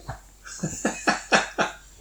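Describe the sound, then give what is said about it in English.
Dogs barking excitedly, a quick run of about six short, sharp yips in a steady rhythm at a moderate level, with no other sound between them. “Apparently the dogs are excited about the 20th episode as well. Yes, those are the dogs celebrating in the background.”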